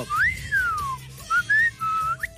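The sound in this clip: A person whistles a clear, bright tune. It opens with a long note that swoops up and then glides down, followed by several shorter notes at varying pitches.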